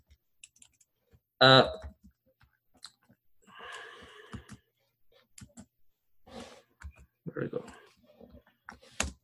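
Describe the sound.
Computer keyboard typing, with sparse, scattered key clicks, some singly and some in short runs. They fall between stretches of a person talking, and one louder burst comes near the start.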